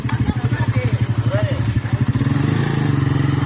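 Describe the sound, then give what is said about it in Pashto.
The engine of a motorcycle rickshaw driven around villages, a low idling chug of fast, regular pulses that runs steadily throughout, with a voice faintly over it. “دغه د موټر سایکل چنچې رکشې ګرځي سودا ګرځي په دې کلو کې کنه د ماخیل دوکانونو باندې.”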